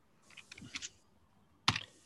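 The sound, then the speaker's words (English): Typing on a computer keyboard: a quick run of light clicking keystrokes, then a pause and a single louder, sharper tap near the end. “I'm trying to type.”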